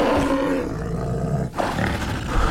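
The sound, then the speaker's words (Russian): A large bear roars as it leaps out from behind a bush: a loud, sustained, rough growling roar with a brief dip partway through before surging again. “Из-за куста выбрасывается большой медведь.”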